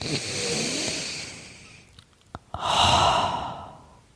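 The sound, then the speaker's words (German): A person takes a deep breath, heard as two long, airy breathing sounds with a short pause between them. A few soft mouth clicks fall in the gap, and the second breath is louder and fuller. “Und darauf nehmen wir jetzt mal einen tiefen Atemzug.”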